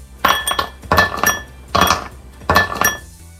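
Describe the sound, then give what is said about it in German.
Ice cubes drop into a glass in four separate bursts, each a quick cluster of bright, hard clinks and rattles. The bursts are evenly spaced, with short pauses between them. “das sind Eiswürfel, die in ein Glas fallen. Und das ist die absolut richtige Antwort.”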